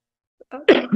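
A sneeze: a short breathy build-up followed by a loud, sharp burst, heard alone without talk.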